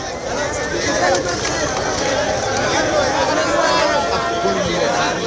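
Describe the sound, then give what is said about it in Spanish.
A crowd of thousands of people leaves Trampolín beach in Ceuta, making a loud, continuous babble of overlapping voices and movement that stays steady throughout. “Este era el sonido de ese éxodo de miles de personas desde la playa del Trampolín.”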